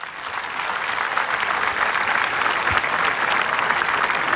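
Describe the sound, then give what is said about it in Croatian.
Audience applause for a festival orchestra at a music festival in Split: dense, steady clapping that holds without a break from start to end, with no voices. “Zaista nam je totalni gušt što su oni večeras s nama i zato vas molim još jedan jači pljesak za sve njih.”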